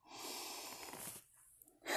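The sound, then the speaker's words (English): A deep breath drawn in during a guided breathing exercise: a long, airy rush for about a second, then a quiet lull, and a fresh burst of breath at the very end. “So first, let's take a couple deep breaths in.”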